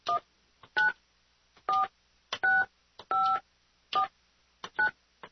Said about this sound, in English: Gosh, I hope I dialed the right number.